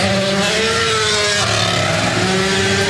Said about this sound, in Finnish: Oliver Solbergin auto karjuu Vesilinnan ohitse